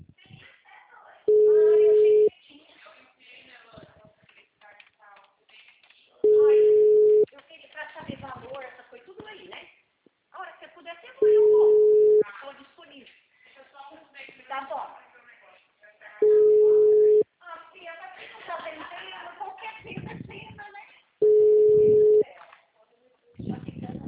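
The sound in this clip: Telephone ringback tone heard while a call is placed: five long, steady, low beeps evenly spaced about five seconds apart, with people talking in the gaps between them.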